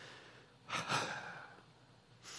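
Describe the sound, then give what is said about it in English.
A group takes a deep breath to relax. It comes as one faint, airy rush of breath that swells and fades over about a second, with a second soft breath beginning at the very end. No words are spoken. “Everybody take a deep breath and just relax right now.”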